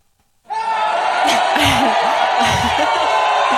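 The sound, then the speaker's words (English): A crowd cheers and whoops, bursting in abruptly after a moment of silence. Loud yells and whoops rise and fall over a sustained roar. “All right. Calm down, audience. It's fine. Those are our fans.”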